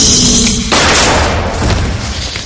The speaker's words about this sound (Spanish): Dispara y agujerea el coche.